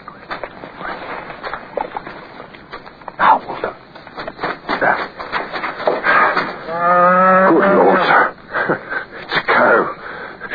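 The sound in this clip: A cow moos in a tense night scene of soldiers creeping forward: one long, loud, throaty low, rising out of rustling background noise midway through.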